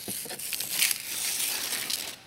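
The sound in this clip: Paper wrapping on a present rips and crinkles as it is torn open, a loud, steady, bright rustling that runs throughout without a break and with no talk over it.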